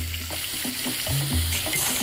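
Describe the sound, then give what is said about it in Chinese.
Snails with their tails clipped sizzle as they are stir-fried over high heat, a steady, loud frying hiss broken by a few soft stirring clatters. “对于坑螺的烹饪，当地人喜欢大火爆炒。”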